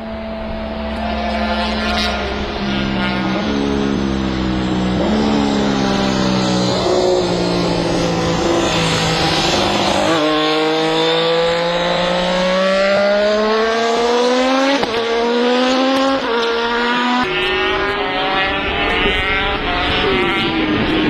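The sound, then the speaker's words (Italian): Engine howl of the Aprilia RS Cube, a three-cylinder MotoGP racing motorcycle, heard alone and loud throughout, its pitch climbing in repeated steps through gear changes, dropping sharply midway, then rising again in a screaming wail. “Purtroppo non esistono molti contenuti audio o video dove poter ascoltare la RS Cube isolata dal resto. In ogni caso, beccatevi sto 3 cilindri spettacolare.”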